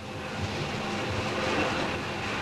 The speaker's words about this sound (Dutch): De wagen op rails kan een snelheid van boven de 100 km per uur bereiken, wat overeenkomt met de werkelijkheid. Hier rijdt de wagen plusminus 30 km per uur.